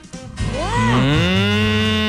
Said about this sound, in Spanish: las vacas en San Pedro dicen mu. Mu. El barcino en San Pedro dice